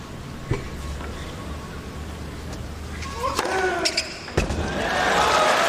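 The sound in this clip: A tennis serve during a match, a 188 km/h delivery to the inside corner: a few sharp thwacks and bounces over steady crowd murmur, with voices underneath.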